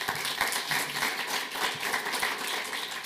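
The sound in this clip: Audience applause welcoming a panel of chief economists at a growth summit session: dense, steady clapping from many hands that fills the whole stretch at an even level.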